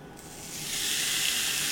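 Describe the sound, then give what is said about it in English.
A steak sizzles as it goes into a hot pan, a soft start that swells into a loud, steady hiss and holds there. “So I'm just gonna put my steak on.”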